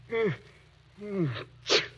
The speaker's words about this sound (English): you sneezed. And there are no pine trees around here.